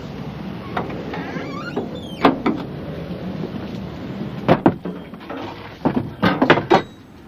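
Knocks and clatters as things are put into a small cupboard while stuff is being sorted for storage. A few scattered thumps give way to a denser cluster of bangs near the end, over a low rumbling background, with no talk.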